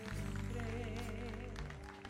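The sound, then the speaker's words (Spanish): Congregation clapping during a church service, scattered claps blended beneath sustained, droning keyboard-like musical notes that continue throughout and soften near the end. “Celebre. Celebre con un aplauso.”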